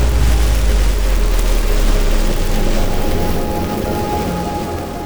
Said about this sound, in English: Explosion.